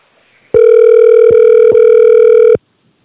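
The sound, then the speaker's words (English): Steady telephone tone with a bright, buzzy timbre, heard alone while a phone number is dialed. It holds for about two seconds, broken by two very brief dropouts, then stops abruptly. “So let's dial him up, man. Let's see what that's going to look like. Let's hear what it's going to sound like.”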